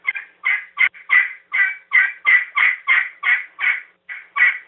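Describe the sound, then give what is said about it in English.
Turkey yelps made on a hand-held turkey game call: a steady, evenly spaced series of many raspy, clear notes, each a short loud burst with brief gaps, heard alone. “and so they'll use that call. That's the yelp, but that's the primary, and they'll use that in a lot of ways.”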